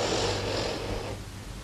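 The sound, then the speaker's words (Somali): A single long breath out, a steady airy rush of even strength that thins and softens toward the end, with no voice over it. “Qaado neef u saar banaanka.”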